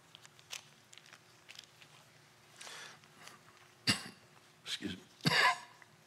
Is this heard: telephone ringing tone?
no